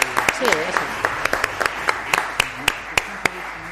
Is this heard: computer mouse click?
no